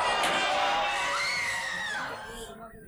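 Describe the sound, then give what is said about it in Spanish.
Crowds of people in a street in a radio drama screaming and shouting in alarm: a dense, high-pitched mass of cries and yells that stays loud, then thins out toward the end. “¡La ventana! Como gritan en la calle. Y corren en todas las direcciones.”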